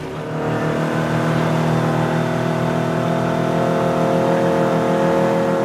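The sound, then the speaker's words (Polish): Motorboat engine speeding up as the boat moves from a river channel onto a lake: a loud, steady low drone with a strong harmonic hum that swells in the first half second, then holds level. “Jest kawałek drogi, może przyspieszymy, nie będziemy jechać w sześciu.”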